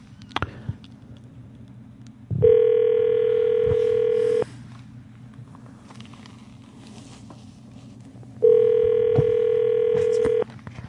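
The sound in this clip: A phone call rings out on speakerphone: two long, steady ringback tones of about two seconds each, separated by a gap of faint background noise.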